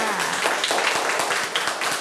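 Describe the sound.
Students in a classroom clap for a classmate, a brisk, loud patter of many hands that stays dense and even for about two seconds.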